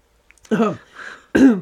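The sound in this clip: Someone clears their throat from a tickle, with a couple of short, rough, voiced rasps separated by a brief, quieter breathy pause.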